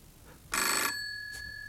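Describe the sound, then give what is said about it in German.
A telephone rings in one loud, bright bell burst whose tone lingers and fades, followed by a faint short trace of ringing. “Und als der nächste Abend kam, ertappte ich mich dabei, auf Marias Anruf zu warten.”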